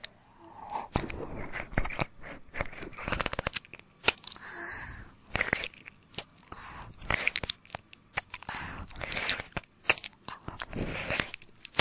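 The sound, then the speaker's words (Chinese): Biting and eating food, with many crisp, crunchy bites and chews in irregular bursts, faint and alone without talk. “好想吃一口呢，可以吗？要不说话，那我就吃了。”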